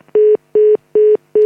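Telephone touch-tone dialing while redialing a dropped line: four loud, identical beeps sound at a steady, even rhythm with short silent gaps between them.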